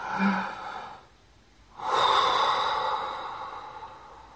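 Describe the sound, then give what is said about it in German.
A deep breath: a short inhale, a brief pause, then a long, slow, audible exhale that gradually fades, with no talking. “Atme jetzt einmal bewusst tief ein und aus.”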